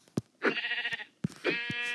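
Sheep bleating in a video game while being struck with weapons: two wavering, nasal bleats, each preceded by a short, sharp thump, loud and alone with no talk.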